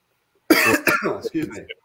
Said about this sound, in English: that made him choke. He's like, oh my gosh.